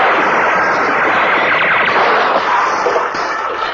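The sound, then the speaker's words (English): Gunfire from a shooting game, a dense, unbroken crackling roar of rapid shots that stays loud and even throughout, with no distinct pauses between reports. “That's nice shooting, soldier!”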